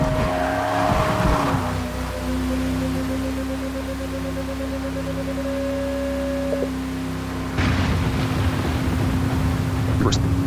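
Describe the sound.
Racing car engine in a video game as the car drives up a wet pit lane: a sustained, held engine tone over a hissing wash, with the sound shifting in character partway through.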